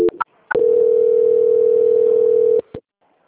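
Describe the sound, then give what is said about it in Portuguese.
Telephone call transfer tone: a single steady tone lasting about two seconds, framed by brief line clicks before and after. “Só mais um instante que eu já vou transferir a ligação.”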